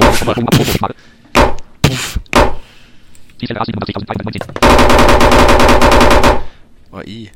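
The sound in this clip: Loud gunfire opens with a few sharp separate shots. Longer bursts of rapid, machine-gun-like fire follow, with one dense sustained volley before a final short burst.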